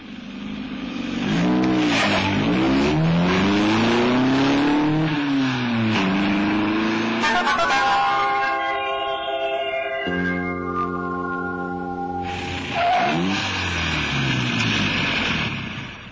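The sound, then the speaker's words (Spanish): A car engine revving loudly on a night drive toward Lake Okeechobee, its pitch sweeping up and down as it accelerates, settling into a steady droning tone, then revving again. “Edgar se puso al volante y salieron hacia el lago Okeechobee”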